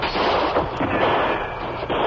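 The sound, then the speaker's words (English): Gunfire crackles from every side of a building under siege, a dense, unbroken volley of overlapping shots and bursts that stays loud through the whole stretch, with no voices. “Shots come from every side of building.”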